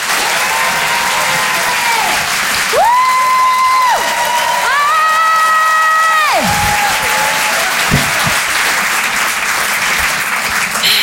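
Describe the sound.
A comedy show crowd gives a comedian a long, loud round of applause. Dense clapping runs throughout, with sustained whoops and high cheering shouts rising over it midway before the clapping carries on alone.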